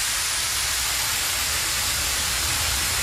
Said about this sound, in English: The big fire hose. It sounds like a big wee.